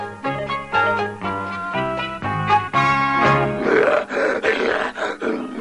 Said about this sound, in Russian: Лев!